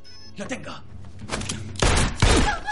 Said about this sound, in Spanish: El topo dispara a Park, que sangra abundantemente.